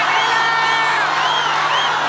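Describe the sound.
Concert audience after a show by a national band, a dense steady roar of shouting voices with whistles and whoops rising above it as they call for more.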